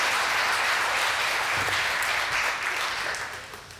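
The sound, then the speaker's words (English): Audience applause for the children during a church sermon: steady, dense clapping that holds evenly and then gradually fades toward the end. “Great job, kids. Give them a hand.”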